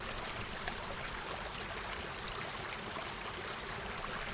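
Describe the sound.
Flowing river water rushes in a steady, continuous wash with no breaks or changes, heard alone without voices.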